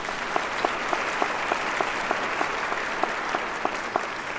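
An audience applauds to welcome a guest, producing dense, steady clapping at an even level, with a few sharper individual claps standing out at a regular pace throughout.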